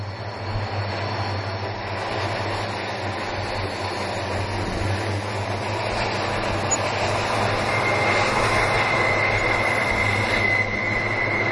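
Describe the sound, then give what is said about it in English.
A coal train hauled by about half a dozen diesel locomotives gives a steady, loud rumbling drone throughout, with a faint, high wheel squeal appearing in the later part. “Now, that was not a coal train. That was just half a dozen diesels just powering along. Nothing on it. But it's a bloody... Oh, no, it is a coal train.”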